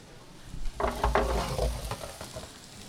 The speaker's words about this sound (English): I'm just going to stir that around and put that back in the oven and let those onions cook until they're soft.